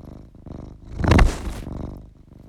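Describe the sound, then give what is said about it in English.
A pet cat purrs with a low, rough rumble that swells to a louder peak midway and then fades back down. No voices are heard. “Maybe you can hear him purring.”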